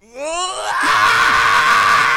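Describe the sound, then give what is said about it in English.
A man does a big scream, starting with a short tonal groan that swells into a loud, harsh, sustained yell lasting about two seconds. “the cameraman has the headphones on, and I just did that scream.”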